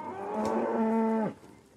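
A cow moos at a bull on a farm: one low, resonant moo that holds a steady pitch, then drops and cuts off, heard alone.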